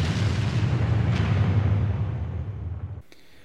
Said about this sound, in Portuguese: Solta a vinheta de bomba aí, diretor.